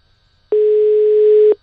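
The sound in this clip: A telephone ringback tone sounds while a call is being placed: one steady, mid-pitched electronic beep about a second long, alone against near silence.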